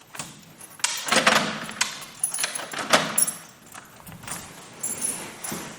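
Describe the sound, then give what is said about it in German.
Keys jangle and click in a lock as a door is locked. Many quiet, scattered metallic rattles and sharp clicks come in uneven bursts, with no talking. “So, die Gastgeberin hat mich gebeten, hier immer abzuschließen.”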